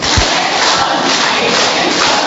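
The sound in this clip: Applause from a church audience during a service: a dense, loud wash of many hands clapping, steady and unbroken for about two seconds, with no talk over it.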